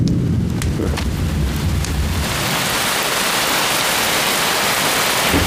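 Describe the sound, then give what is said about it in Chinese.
Heavy rain with thunder: a low thunder rumble fills the first few seconds beneath the downpour, then a dense, loud, steady hiss of rain continues to the end. “这么大的雷啊，吓我一跳！你看，要下雨了。”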